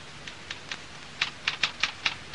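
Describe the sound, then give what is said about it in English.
Typewriter keys tap out a letter in a short run of sharp, irregular clicks, with a few spaced strokes followed by a quicker cluster. The strokes are fairly faint and no one speaks. “I want the letter to Mr. Johnson. I've just typed it.”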